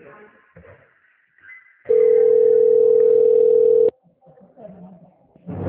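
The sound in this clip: A telephone line tone during a call transfer: a single loud, steady beep of about two seconds, with muffled voices before and after it.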